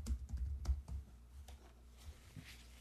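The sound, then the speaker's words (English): Quick typing on a computer keyboard as a web search is entered. A rapid, irregular run of soft clicks thins out and stops, leaving near quiet. “Type that in. Type in McConaughey mug shot.”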